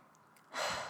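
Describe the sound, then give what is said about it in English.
One slow, deep inhale is drawn during a calming self-compassion exercise, a soft, airy breath that swells midway and holds steady to the end. It is quiet, with no talk over it. “So right now in this moment, I just take a deep breath. I invite you to take a deep breath.”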